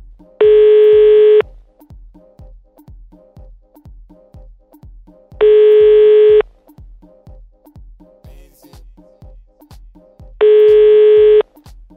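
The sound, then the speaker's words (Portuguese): Ringback tone of an outgoing telephone call being placed: three steady tones of about one second each, spaced about five seconds apart, over a quieter rhythmic ticking beat. “Então nós vamos ligar pro Fernando, saber qual que é do Fernando.”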